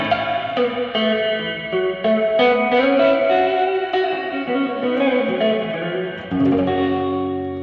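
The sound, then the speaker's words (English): Guitar played through a church reverb effect, a phrase of picked notes and chords whose attacks blur into long, washing reverberant tails that sustain between strikes. “Love it. It's pretty cool. Church reverb.”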